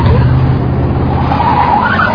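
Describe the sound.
Car tyres skid with a loud, sustained squeal over a roaring engine, the screech holding strong throughout.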